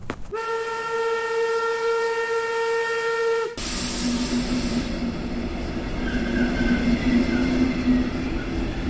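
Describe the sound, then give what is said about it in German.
A train departs with a sustained steady whistle lasting about three seconds, then a loud, broad rumble and hiss of rolling cars that continues to the end. “Nein, das darf jetzt nicht wahr sein. Das war meine Bahn.”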